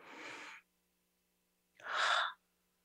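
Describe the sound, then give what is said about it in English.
A deep breath in and out during a guided mindfulness exercise: a soft, airy inhale, a pause of about a second, then a louder, breathy open-mouthed exhale. “let's take a deep breath. I'm going to take a deep breath in and out.”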